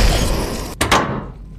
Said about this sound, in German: Traudel, Kapsel schließen.